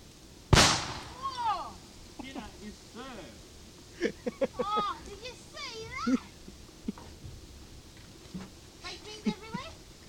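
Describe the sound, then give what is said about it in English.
A can of baked beans bursts in a fire with a single sharp, loud bang near the start. Excited voices talk and laugh afterwards. “And now a can of baked beans in the fire.”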